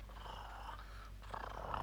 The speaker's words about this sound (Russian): О, да вы уже научились мурлыкать.